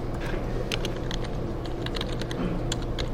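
Fingers type on a computer keyboard while writing code in the Eclipse editor, producing a continuous run of many quick, light key clicks over a low steady background hum, with no talking.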